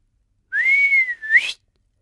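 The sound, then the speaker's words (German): A person whistles a long, steady, clear note, then quickly follows with a second short note that sweeps upward, heard alone against silence. “Pfiff er. Und dann nochmal.”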